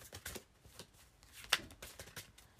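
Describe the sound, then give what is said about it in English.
Faint shuffling of tarot cards, many soft papery riffles and taps in an uneven rhythm, with one sharper snap of cards partway through. “I've been shuffling for a minute.”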